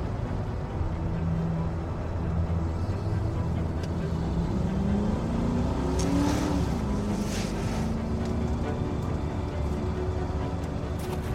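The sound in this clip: A group's cars arriving, heard as a broad, steady engine rumble with a motor tone that rises in pitch partway through. The sound stays continuous and fairly even in loudness from start to finish.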